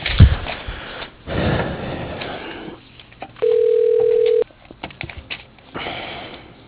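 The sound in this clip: A single steady electronic tone sounds for about a second as a telephone call is transferred, set among line noise and scattered soft clicks and rustles.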